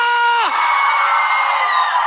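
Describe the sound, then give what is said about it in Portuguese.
Crowd cheering and shouting in Maceió, loud and sustained throughout. It opens with a held shout that slides down in pitch, then a dense roar of voices continues. “Cadê o grito da galera?”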